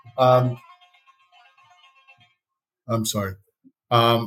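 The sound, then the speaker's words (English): A phone ringtone sounds as a faint, soft tonal melody lasting under two seconds, set between loud bursts of speech. “Nice ringtone.”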